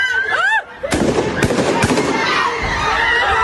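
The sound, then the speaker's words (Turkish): Gunshots and screaming after a funeral meal in Ankara's Altındağ district, as a gunman opens fire on a crowd, captured on a mobile phone. Shrill screams come first, then three sharp bangs amid shouting voices. “Silah sesleri ve çığlıklar birbirine karıştı.”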